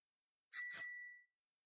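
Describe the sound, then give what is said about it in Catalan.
A bell rings once with a bright, metallic, sustained tone that sounds on its own and fades out within about a second. “El timbre fa... Ring, ring!”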